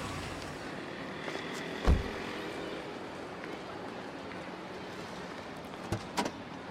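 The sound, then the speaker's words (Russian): A car door thuds shut as a man climbs out of a car carrying a baby carrier: one solid, low thump early on, then a couple of lighter knocks near the end over a steady background hum. “Вышел из машины с переноской, в которой ребенок.”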